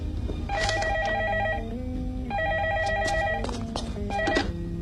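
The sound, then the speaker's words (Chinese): A telephone rings with an electronic trilling tone in a few repeated bursts separated by short gaps, fairly loud, with no voices. “说曹操，曹操来电话啦。”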